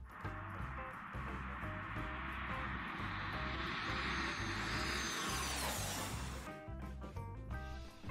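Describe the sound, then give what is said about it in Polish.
A Cessna 525 business jet makes a low pass at Watorowo near Bydgoszcz, a broad, fairly faint jet roar whose whine drops in pitch as it goes by, with no talk. “w Watorowie, nieopodal Bydgoszczy, gdzie pilot Cessny 525 wykonał jedno z najsłynniejszych low passów w internecie.”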